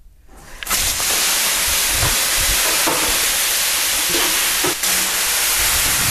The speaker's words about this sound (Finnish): Pistää vähän lisää löylyä.